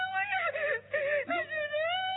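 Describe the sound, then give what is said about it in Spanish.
A mother cries in a wavering, high-pitched wail that rises and falls, broken by a couple of short gaps, with no words spoken. “No, mamá, no llores.”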